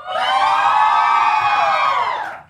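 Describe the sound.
Audience cheering and whooping at a live show when asked to make noise for one option in a vote: one loud, sustained roar of bright voices lasting about two and a half seconds, then quickly fading out.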